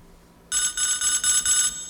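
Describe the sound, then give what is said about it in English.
An electronic tone sent back down a phone line during a call: a bright, buzzy warble starting after a moment of quiet, then pulsing in a steady run of short, evenly spaced bursts with no talking. “That was me sending a tone back through the phone.”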